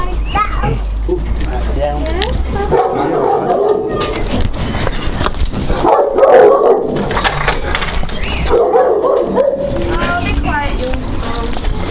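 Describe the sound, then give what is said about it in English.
A little dog barks and yaps in bursts among children's and adults' voices, the barking mixed in with lively chatter throughout. “Oh, I bet it was my dog.”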